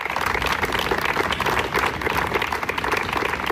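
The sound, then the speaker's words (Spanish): Townspeople in Santurtzi applaud at a town-council protest against sexist assaults in the town, a dense, steady wash of many hands clapping that holds at an even level throughout. “con estos aplausos y un minuto de silencio, ha respondido la ciudadanía al llamamiento del Ayuntamiento y del Consejo de Igualdad Municipal contra las agresiones machistas ocurridas en esta localidad.”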